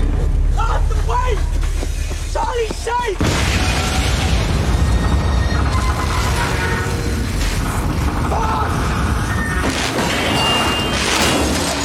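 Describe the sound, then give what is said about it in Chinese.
A bomb detonates in a British gangster TV drama: voices come first, then a sudden loud blast about a third of the way in, followed by sustained dense rumbling and crashing that stays loud to the end. “然而就差那么一点点，时间一到，大哥引爆了炸弹。”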